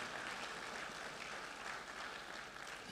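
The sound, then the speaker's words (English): Audience applauding themselves during a church service, a sustained, even wash of many hands clapping with no break, alone and fairly soft. “Come on, give yourselves a hand. Give yourselves, come on, seriously, give yourselves a hand.”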